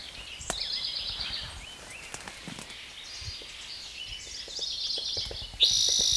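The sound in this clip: High, rapid bird chirps come in two short bursts over a faint background hiss, followed near the end by a louder, sustained high note.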